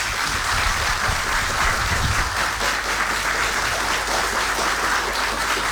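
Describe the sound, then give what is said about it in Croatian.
Audience applause at a live music event, a dense, steady clatter of many hands clapping at an even, fairly loud level for the whole stretch, with no voices over it. “Ja bih molio da aplauziramo ovdje.”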